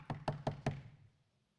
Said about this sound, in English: I wasn't sure if it was somebody banged on our window or somebody banged on our door.